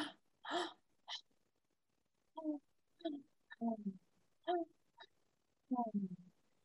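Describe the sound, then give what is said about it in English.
Rapid breathing, with quick sharp inhalations into the high chest and exhalations through the mouth: a series of short gasping breaths with brief pauses between them, several of the later ones voiced and tonal. “You breathe from your high chest in, and then you exhale through the mouth. So it kind of sounds like this. You're breathing in, breathing out. So it's rapid.”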